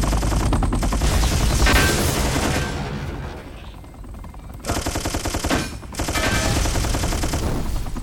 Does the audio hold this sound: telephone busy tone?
no